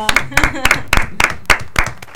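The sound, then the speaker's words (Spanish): A few sharp hand claps land at irregular intervals in a radio studio, loud and crisp, each a short separate slap with brief pauses between, and talk runs faintly beneath. “Un aplauso.”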